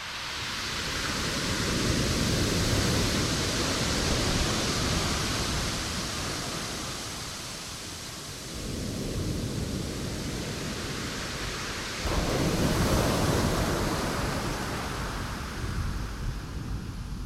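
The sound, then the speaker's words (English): Ocean surf rolls onto a driftwood-strewn beach at Rialto Beach as a loud, steady, hissing roar. It eases slightly past the midpoint, then swells again near the end, with no voices. “And I'd like to share with you the sound of the most musical beach in the world to my ears.”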